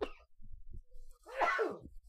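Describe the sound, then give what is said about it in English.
One person sneezes once: a faint breathy intake, then a single sharp, loud burst that tails off quickly. “excuse me, that was a sneeze.”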